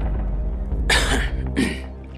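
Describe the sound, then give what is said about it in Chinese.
A light, restrained cough from a male police leader in a crime audio drama. Two short, breathy bursts come in quick succession over a steady low background tone. “高栋轻咳了一声，说道：”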